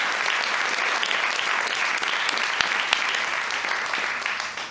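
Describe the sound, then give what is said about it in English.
Audience applause at a storytelling event, a dense, steady wash of clapping that holds at an even loudness throughout and tapers off only at the very end. “so, well done. And big round of applause.”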